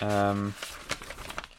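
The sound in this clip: A blank paper sheet rustles and crinkles in a few quick, light bursts, right after a short voiced sound.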